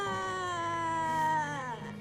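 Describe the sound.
A young child cries in a sustained, wavering wail with a steady tone that dips slightly in pitch near the end.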